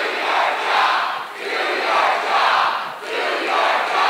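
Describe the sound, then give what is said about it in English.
Protesters at a congressional town hall with Jason Chaffetz chant a phrase in unison, loud and many-voiced. A few repetitions swell and dip in a steady rhythm. “At one point, the crowd chanted,”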